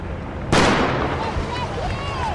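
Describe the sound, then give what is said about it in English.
A starting gun fires at the start of a 12-kilometre run in Spokane: one sharp, loud crack that gives way to a sustained, noisy din lasting to the end. “as he waited for the starting gun in Spokane”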